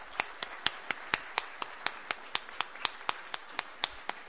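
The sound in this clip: Applause welcoming speakers, heard as many single hand claps at a brisk, even rhythm. The claps are fairly quiet and sound alone, with no voices.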